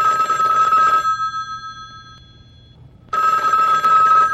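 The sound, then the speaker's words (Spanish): A telephone rings in two bursts of bright, steady electronic trilling, with a roughly two-second quiet gap between them before the second ring starts. “a esta hora tenemos llamada. ¿Contesta usted o contesto yo?”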